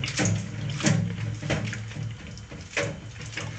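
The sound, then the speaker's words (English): Running tap water rinses cut cabbage, a continuous broad hiss with a few brief louder splashes and knocks throughout, without voices. “I just cut up some cabbage here. I'm going to rinse it off before I chop it up.”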